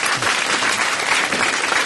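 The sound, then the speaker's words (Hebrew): Applause from an audience welcoming a guest singer at a yeshiva gathering: a dense, continuous wash of many hands clapping at an even loudness throughout. “אפשר לתת לו מחיאות כפיים.”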